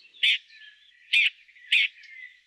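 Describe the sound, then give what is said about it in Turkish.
A merlin calling in Latvia: three sharp, shrill, high-pitched notes at uneven intervals, with fainter thin calls running between them and no voices. “Bozdoğan'ı Agris Selmins, Latvia'da.”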